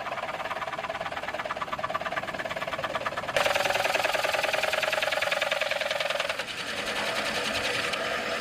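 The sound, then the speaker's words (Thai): A homemade woodworking machine, invented as part of making coconut shell lamps, runs with a steady mechanical buzz and rapid rhythmic chatter. It grows louder partway through, dips briefly, then carries on, with no voices. “เครื่องนี้เป็นส่วนหนึ่งของการทำโคมไฟกะลาทำเพื่องานไม้อย่างเดียวเขาเรียกว่าเครื่องมือขวาน”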